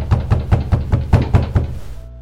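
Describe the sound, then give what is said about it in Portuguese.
Eight heavy knocks on a door in a quick, evenly spaced run, each a deep, solid thud, followed by a low steady tone once the knocking stops. “Dou uma pancada mais forte na porta. Uma pancada na porta.”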